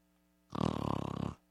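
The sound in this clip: A voice imitates snoring, mimicking someone asleep with a neck pillow on a long airplane flight: one loud, rattling, pulsing snore of a little under a second that starts abruptly and stops cleanly, with silence before and after.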